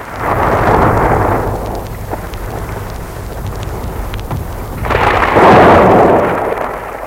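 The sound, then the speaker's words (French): Thunder and gusting wind in a lightning storm: a broad roaring surge at the start and a second, louder surge near the end, with lower rumbling noise between them. “une rafale de vent et des éclairs ont ouvert la fenêtre.”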